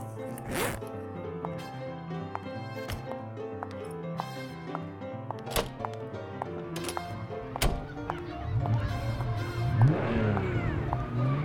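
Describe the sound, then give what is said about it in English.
A car arrives outside, its engine noise building over the last few seconds and swelling into a broad rumble after an earlier stretch of other sounds. “Car outside? One of the high school boys, maybe? No. Right. Ugh, bet it's my ride.”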